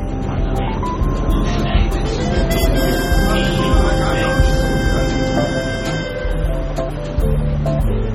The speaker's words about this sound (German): Sie fährt mit einer Straßenbahn in die Arbeit.